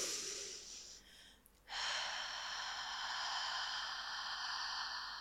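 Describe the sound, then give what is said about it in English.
Slow exhale during a breathwork exercise: an airy breath, a brief pause, then a long, steady, loud hiss of breath that lasts to the end. “Starting to slow the exhale.”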